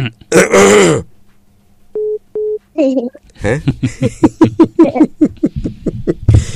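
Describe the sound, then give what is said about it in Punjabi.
A person gives a single harsh cough or throat-clear at the start. Two short steady electronic beeps follow, then people talk. “ਬੜੀ nice ਖਾਂਸੀ ਆ ਤੁਹਾਡੀ”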